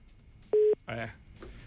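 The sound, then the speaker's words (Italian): Telephone keypad button tones from a caller pressing buttons during a call: two short, steady electronic beeps with a brief burst of voice between them, fairly loud. “È il suo telefono, che lui preme ogni tanto qualche pulsante che non va”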